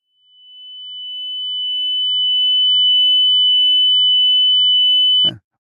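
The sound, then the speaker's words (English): A pure 3,000 hertz test tone fades in and holds steady and unwavering at one high pitch for about five seconds, then cuts off with a brief click. “So here's 3,000 hertz.”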